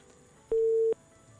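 A telephone busy tone as a call line cuts off: one short, steady, mid-pitched beep lasting under half a second, with near silence before and after.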